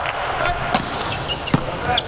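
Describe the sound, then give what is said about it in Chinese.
A volleyball serve by Kovalov during a match, heard as a couple of sharp ball strikes under continuous commentator speech. “科瓦洛夫的发球，”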